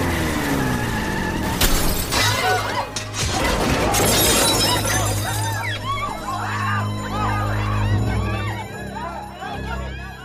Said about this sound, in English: The car knocked her clean through the window and halfway across the chocolatier department.